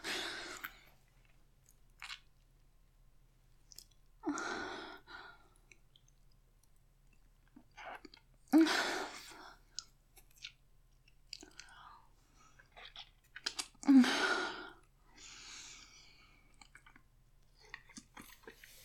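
A person chews food while tasting it: soft, wet crunching and squishing bursts come in irregular clusters between quiet pauses, faint overall.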